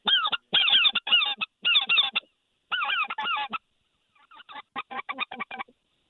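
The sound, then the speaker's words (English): A flock of speckled-belly geese honks overhead during a hunt. Many loud, rapid, rising-and-falling calls come in clustered bursts and then turn fainter and sparser toward the end. “There's geese everywhere flying right now. They're kind of just starting to move.”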